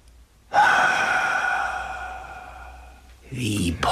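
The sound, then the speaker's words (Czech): A loud, long voiced exhale from a person told to breathe out during a medical-style examination. It starts strong and fades gradually over about three seconds, and another breathy vocal sound follows at the end. “Hlasitě vydechněte.”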